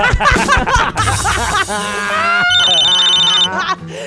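A telephone rings with a steady electronic tone that follows a burst of laughter and chatter.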